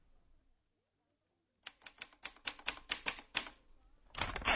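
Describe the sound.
Typewriter keys strike in a quick, sharp, fairly regular run of many clacks after a moment of silence, ending in a louder rush of mechanical noise.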